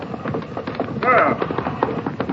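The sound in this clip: A horse is ridden hard, its hooves striking the ground in many quick, thudding beats that come in an uneven galloping rhythm and swell briefly louder midway.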